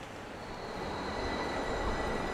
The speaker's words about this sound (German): Die Bahn ist angekommen und hat Menschenmengen ausgespuckt, die sich gemeinsam die Treppen hochschieben.